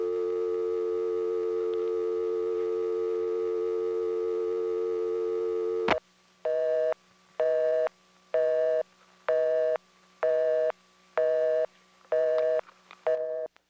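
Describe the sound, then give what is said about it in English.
A telephone line tone plays after an outgoing call times out: a steady continuous tone for about six seconds, then a sharp click and a regular series of on-off beeps, ending with a few quicker short bursts. “What you get when you time out on a call that you're making after supervision has gone off for, I don't know how many, 30 seconds maybe. It's also what you get if someone calls you and they hang up.”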